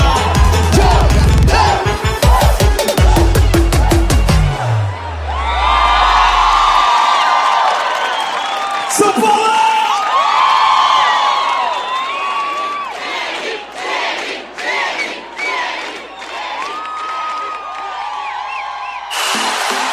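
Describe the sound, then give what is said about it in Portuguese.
Football supporters cheer and shout in a loud, sustained crowd roar with whoops and chanting. Rhythmic beats open the first few seconds before the crowd noise takes over. “Torcida se encontra por aqui.”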